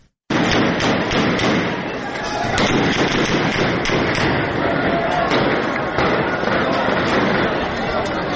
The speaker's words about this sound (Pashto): دغه د ضلع شنګلې پالپورې بازار کې د مظاهرچیانو او پولیس ترمنځ انښتو کې د ډزو آوازونه دي.